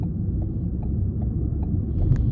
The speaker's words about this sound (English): I've just got off the, is that the Gardner Expressway still? I guess maybe it's the QEW at this point, and I'm pulling onto Kipling Avenue, about to head into work.